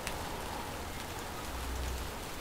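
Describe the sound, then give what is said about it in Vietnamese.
Rain falling outside a window makes a steady, even hiss with no clear individual drops. It keeps a constant level throughout, with no voices. “Mưa, phía bên ngoài ô kính là những bọt mưa trắng xóa cả một nền trời.”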